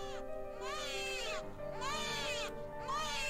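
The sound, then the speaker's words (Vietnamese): A newborn baby cries just after birth while a nurse holds it, giving three wailing bursts with strong, warbling harmonics that rise and fall in pitch, fairly faint. “Nữ y tá nhìn thấy đứa bé cất tiếng khóc oe oe chào đời”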